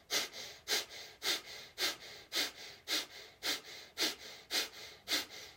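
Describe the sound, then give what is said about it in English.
Forceful breaths are shot out through the nose or mouth during a guided breathwork exercise. Short, sharp, hissing exhales come in a steady, even rhythm of about two per second, with quieter breathing in between. “just focus on the navel point coming into the spine as we shoot the breath out through the nose or out through the mouth, your choice.”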